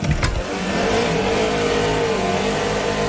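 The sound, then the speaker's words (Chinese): A car accelerating hard in a race, a loud, sustained engine roar with a slowly climbing tone and no talk. “这样加速他不怕撞了吗？”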